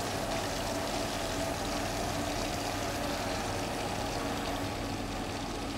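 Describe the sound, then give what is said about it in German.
A pump whirs steadily with a rushing flow of liquid as curd and whey are pushed through a hose into a cheese mould. The sound is continuous and even, with no talk. “Schlauch in Position. Dann kann ich jetzt die Pumpe starten. Jetzt kommt Molkebruch.”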